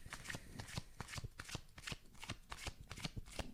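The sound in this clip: A deck of cards being riffle-shuffled, with many rapid, crisp clicks and flutters of the cards coming in repeated bursts throughout.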